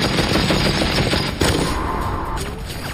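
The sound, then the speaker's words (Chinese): A German MG42 multipurpose machine gun fires at around 1,500 rounds per minute, producing a harsh, continuous tearing roar with no distinct gaps between shots. “MG42 是德国人制造的一种多用途机枪，拥有令人生畏的射速，1分钟1500发子弹，听起来就像布匹撕裂的声音。”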